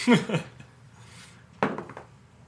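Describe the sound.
Dice clattering onto an expensive dice tray during an Icewind Dale tabletop game session: a bright rattling burst at the start and a second quick clatter later, with faint voices in between.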